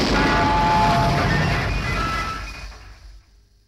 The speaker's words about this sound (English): the radio's exploded